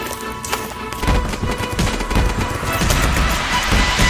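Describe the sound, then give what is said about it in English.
Slime being mixed with powder gives off many wet clicks, crackles and squelching pops in a dense, busy stream that grows slightly louder as the mixing goes on. “Let's get the powder and let's put it into the slime. Ooh. All right, let's start mixing this all together.”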